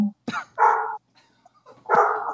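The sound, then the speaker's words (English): Little five-day-old puppies bark and yip in a few short, mid-pitched bursts with faint squeaks in between. “There's puppies. They're little puppies. I need puppies. Puppies. I think they're only 5 days old.”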